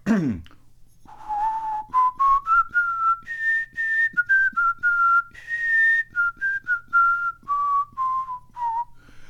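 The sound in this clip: A person whistles a half-remembered song melody from childhood: many clear, sustained notes that climb in steps, then drift back down, slightly wavering, with no talk.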